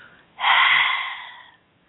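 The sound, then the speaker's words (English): A single deep breath during a relaxation breathing exercise: a breathy, airy sound of about a second with a sharp onset that gradually fades. No speech. “Breathe in and out. Just really allowing yourself to release. Breathe in and out.”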